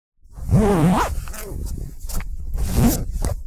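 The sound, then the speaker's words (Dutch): A jacket zipper is pulled open in one continuous rasp of teeth lasting about three seconds. It is fairly loud and close, with a few brighter scratchy bursts along the way. “Dat is het geluid van mijn ritssluiting. Ja, van mijn jas die open gaat,”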